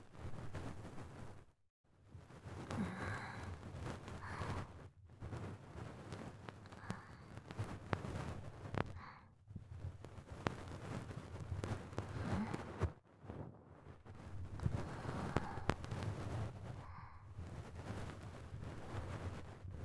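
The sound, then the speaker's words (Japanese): Fluffy bonten ear-cleaning fluff twirls in the ear, making a close, continuous scratchy rustle that runs steadily with a few brief silent pauses. “とりあえずこの梵天をくるくるってする感じでいいんですかね。”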